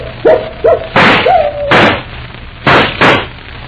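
Gunshots ring out in a radio drama: four loud, sharp bursts fired in an uneven rhythm, preceded by a few short whining cries.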